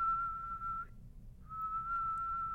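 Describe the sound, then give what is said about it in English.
A person whistling two long, steady, level notes separated by a short pause. The whistle is fairly soft, with no talk alongside it. “If I keep whistling like that, Mac will show up here”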